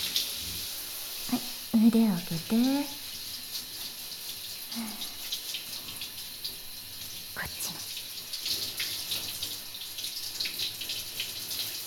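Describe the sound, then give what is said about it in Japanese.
Water runs from a tap as something is rinsed after washing. A soft, continuous hiss of flowing water continues throughout, with a few brief voiced sounds near the start. “これで洗うの終わり。あ、流しちゃうね。”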